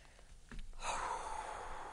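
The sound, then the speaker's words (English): One person draws a deep breath, a soft, faint breathy rush that begins partway in and carries on steadily to the end. “I'm just going to take a deep breath here.”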